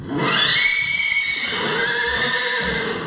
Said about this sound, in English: A chestnut mare is greeted by two stallions at Lane's End Farm near Lexington.